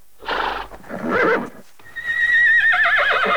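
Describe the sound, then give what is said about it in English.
A horse whinnies: two short, breathy bursts are followed by a long, loud neigh with a shaky, quavering pitch that carries to the end. “She turns to the horse beside her in the bed.”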